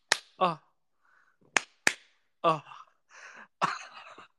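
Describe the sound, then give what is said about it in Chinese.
A few sharp, quiet smacks of a hand slapping buttocks, interleaved with short voiced exclamations and breathy sounds, separated by near silence. “听一下我拍屁屁的声音”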